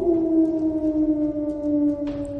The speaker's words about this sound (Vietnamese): Đàn sói phi nhanh lên mặt đất, nhảy vọt qua từng nhánh cây, vừa chạy vừa phát ra tiếng gào rú